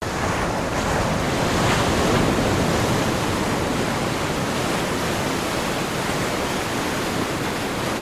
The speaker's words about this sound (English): oh man, that's just waves crashing on a beach. Well, the reality is, it is waves crashing on a beach